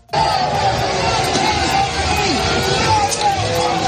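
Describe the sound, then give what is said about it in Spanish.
A dense, continuous crowd din fills the streets of France as people protest after the Senate approved the pension reform. The mass of voices and street noise stays loud and steady throughout. “esto que escuchas es el ambiente que se vive en las calles de Francia después de que el Senado francés haya aprobado el polémico proyecto de reforma de las pensiones impulsado por el gobierno de Macron”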